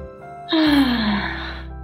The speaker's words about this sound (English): I think I just needed a deep breath.